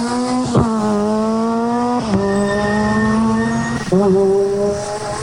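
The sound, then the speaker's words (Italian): A 600 rally car accelerates hard from the rally start zone, its loud buzzing engine note climbing steadily and dropping sharply at several quick upshifts, with brief tyre noise. “Avete sentito questa 600 che in poche centinaia di metri ha messo 4 marce, la dice lunga sulla prestazione che può scaturire.”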